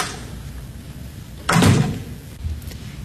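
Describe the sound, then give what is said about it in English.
A back door opening and closing: a loud wooden thump with a brief rattle, then a softer knock a moment later. “I'll use the back door. Good night.”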